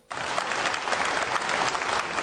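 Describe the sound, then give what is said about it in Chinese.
Audience applause at a staged crosstalk comedy show starts abruptly and holds as a steady, dense patter of clapping for about two seconds, with no talk over it. “谢谢四位的掌声鼓励。”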